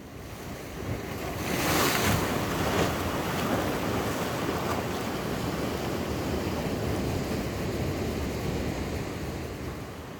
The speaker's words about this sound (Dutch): door het geluid van deze zee. Laat het door je heen gaan, om je heen gaan, over je heen stromen. Tegen je aan spatten.